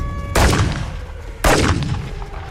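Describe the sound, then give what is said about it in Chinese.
Two sharp, loud gunshots about a second apart ring out during a night curfew chase, each a sudden crack followed by a booming tail that slowly dies away, with no voices. “别跑，再跑就开枪了！”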